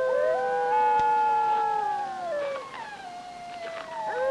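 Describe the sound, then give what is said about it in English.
A pack of wolves howls in the distance on a frozen, moonlit winter night. Several long, overlapping howls hold steady tones, then slide and fall in pitch before a new howl rises near the end. “In the distance, a pack of wolves gathers in a grove of trees.”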